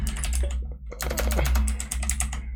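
Typing on a computer keyboard to send a message: rapid, dense key clicks clatter almost continuously, with a brief lull before the keystrokes pick up again at a steady pace.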